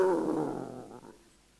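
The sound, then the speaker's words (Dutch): A dog on a chain growls, one low, rough rumble that starts strong and trails away into quiet within about a second. “hij had een grommende hond aan de ketting.”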